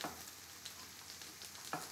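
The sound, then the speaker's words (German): Small round cakes fry gently over medium heat in browned hazelnut butter in a pan, giving a faint, steady sizzle with soft crackles scattered through it. “Ich habe darin Butter, Haselnuss braun werden lassen. So. Und jetzt einfach mit einem Esslöffel kleine, runde Küchlein reinsetzen. Sanft auf mittlerer Hitze braten.”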